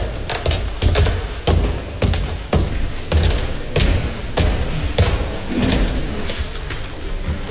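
Footsteps on wooden stairs in a museum, many hollow thuds in an uneven walking rhythm, some heavier than others.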